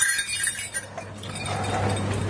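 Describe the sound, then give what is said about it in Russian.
Small harness bells for a horse troika jingle faintly in light, scattered tinkles over a steady low hum, with no voices. “У нас вот есть, если лошадь тройкой, можно вот бубенчики.”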